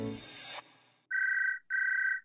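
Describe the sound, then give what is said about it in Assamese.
A telephone rings twice, each a steady buzzing electronic trill separated by a short gap, following a fading stretch of other sound. “পিছদিনা গধূলি ছয়মান বজাত তাই মোক phone কৰিলে”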